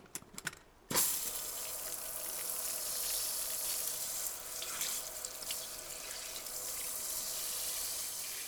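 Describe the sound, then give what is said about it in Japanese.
Hot water is run for washing at an inn: a few short clicks, then a tap comes on abruptly and flows in a steady, fairly faint rushing stream that continues to the end. “お湯洗いをしてまいりましょう。”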